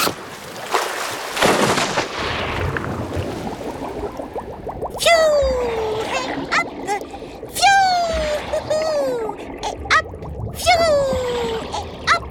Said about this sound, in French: Oh, tu as choisi une bestiole fossile aquatique. Allez hop, je plonge pour la retrouver.